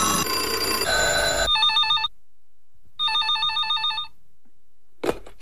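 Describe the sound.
Telephone in a radio studio rings with an electronic trilling tone in two bursts, separated by a short silence, right after a stretch of music ends.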